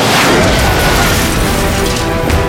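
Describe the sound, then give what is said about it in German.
An artillery shell explosion roars as a loud, sustained boom, its dense rumbling blast filling the whole clip without letting up. “Was ist das? Artillerie! In Deckung! Runter, runter! Unter die Pritschen!”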